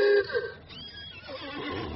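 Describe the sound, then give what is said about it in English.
A horse, covered by an awning-like tent and standing across a road, gives a short, loud whinny at the very start, which quickly fades into low, rough background noise. “One of these things is a horse. At least it looks more like a horse than anything else I can see on four drinks. Yeah, it is a horse.”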